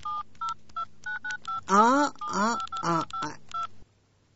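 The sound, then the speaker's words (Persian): A telephone is dialed to place a call, with many short, evenly spaced touch-tone beeps in a steady rhythm. A voice briefly sounds over the middle of the sequence, and the beeps stop abruptly into silence. “اینه سب، من زنگ میزنم، اینه سب.”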